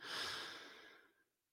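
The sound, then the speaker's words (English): A deep breath drawn in during a guided breathing exercise, heard as a single soft, airy rush that starts strong and fades away over about a second. It is faint and heard alone. “Let's go ahead and take another one. And deep breath in.”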